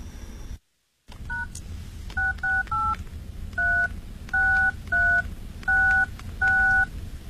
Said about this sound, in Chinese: 能不能现在麻烦你给你太太打个电话证实一下？